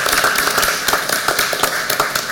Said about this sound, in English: I want to give her a round of applause